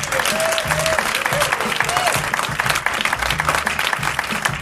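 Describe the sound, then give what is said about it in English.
An audience at the Chicago Council on Global Affairs gives loud, sustained applause, a continuous dense roar of clapping with a few voices calling out over it. “Give yourselves a hand.”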